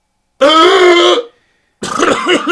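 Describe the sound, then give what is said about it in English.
A person imitating gasping for breath while asleep: two loud, strained voiced bursts separated by a short silence, the first a long raspy gasp, the second a rougher, choking rattle. “This is me pretending to be asleep and trying to breathe. This is me gasping.”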